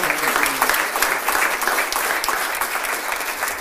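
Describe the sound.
An audience applauds to welcome a preacher to the pulpit, a dense, even wash of clapping from many hands that keeps up throughout.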